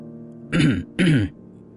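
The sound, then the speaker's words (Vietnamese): Two short, dry coughs or throat-clearing bursts from an old man choking on his own saliva, evenly spaced and fairly loud, alone with no talk around them. “Lão Lưu tự hồ như là bị nước miếng của mình làm sặc, ho khan không thôi.”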